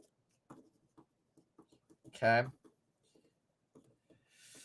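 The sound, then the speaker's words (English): Pen scratching as something is written down, a series of short, faint strokes in an uneven rhythm, with one brief voiced sound in the middle. “I love this. I got to write this down.”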